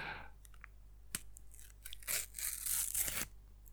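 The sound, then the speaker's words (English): A sticker packet is torn open: faint crinkles and small crackles lead into a longer, louder papery rip toward the end. “An average tear. Not horrendous, though. But I'm going for the big open.”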